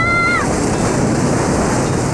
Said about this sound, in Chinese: 潮来了，快上来呀